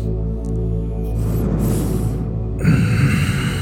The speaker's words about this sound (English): Then hit your vape. Take two more deep breaths.